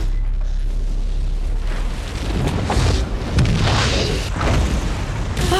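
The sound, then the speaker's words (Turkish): Large explosion on a burning offshore oil rig: a loud, continuous booming roar with heavier bursts swelling through the middle, sustained from start to finish. “Yanıyor! Büyük bir patlama oldu! Yardımınız gerekiyor!”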